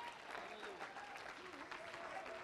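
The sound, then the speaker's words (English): A church audience claps its hands in praise, sustaining a faint, dense, continuous applause while a voice speaks over it. “Clap your hands unto him. Praise God. Praise God.”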